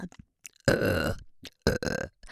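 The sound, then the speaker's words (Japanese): Repeated burping: two long, loud, rasping belches from one person, the second broken by a brief catch, with faint short throat sounds in the quiet gaps between them. “連続ゲップの方が好きなんですね。連続ゲップの方が”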